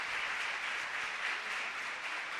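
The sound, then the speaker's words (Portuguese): A church audience applauds the widows during a service, a continuous, even wash of many hands clapping that holds the same loudness throughout without voices. “Vamos dar uma salva de palmas para as viúvas.”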